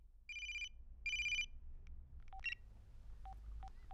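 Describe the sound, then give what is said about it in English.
A telephone ringing: two short bursts of bright electronic trilling, followed by a few brief, faint beeps. All of it is quiet, with no voices. “because at that very moment, the phone rings.”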